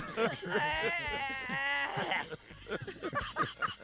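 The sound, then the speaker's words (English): A baby whines hoarsely: a rasping, bleat-like cry wavers for about two seconds, then breaks into short, broken whimpering bursts. “I never heard a baby whine hoarse.”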